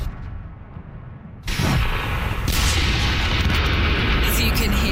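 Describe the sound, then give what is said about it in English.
Artillery fire and sniper gunfire during a military exercise form a loud, continuous booming rumble that swells partway through, with no separate shots standing out. “You can hear snipers, there's artillery”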